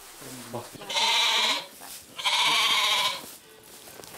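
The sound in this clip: A billy goat bleating in a stable, with two long, loud, wavering bleats separated by a short pause.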